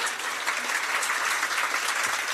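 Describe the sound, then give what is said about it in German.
Applause sound effect played from a soundboard: a dense, steady burst of many hands clapping, evenly loud throughout with no voices. “Wir brauchen das auch im Podcast. So ein Nippelboard, dass wir das so geklatscht wird.”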